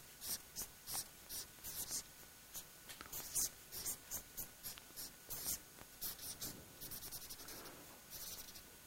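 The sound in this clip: Handwriting, with many quick, scratchy pen strokes in a steady, uneven rhythm of short bursts, fairly faint throughout.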